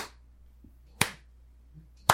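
Two sharp, isolated hand claps imitate a reality show judge applauding. They come about a second apart, each a crisp slap with a short tail, against near silence.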